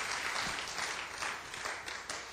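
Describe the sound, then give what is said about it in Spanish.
Applause from a church audience during a Spanish-language service, a steady, dense wash of clapping that holds at an even level throughout with no voices over it. “¿Y cuánto da un aplauso al Señor en esta tarde?”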